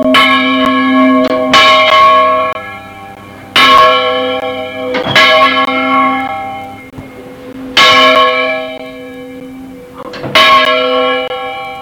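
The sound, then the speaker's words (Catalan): A church bell named Vicent Ferrer ringing, loud, slow strikes repeated at uneven gaps, each leaving a long, rich humming resonance that fades before the next. “Quin nom té aquesta campana, eh? És el Vicent. El Vicent. Però és el Vicent Ferrer, no?”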